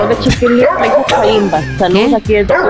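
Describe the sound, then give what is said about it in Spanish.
A dog yips and whines in a busy run of loud, high, wavering cries mixed with short barks, with brief gaps between calls. “Saludos aquí del perro.”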